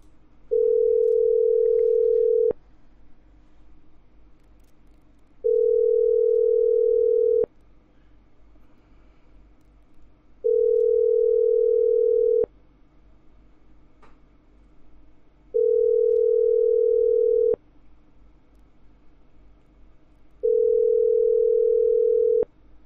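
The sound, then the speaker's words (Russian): Telephone line tone while a number is dialed: five long, steady mid-pitched tones of about two seconds each, separated by even gaps of near silence, with a faint click marking the end of each tone. “еще раз набираю”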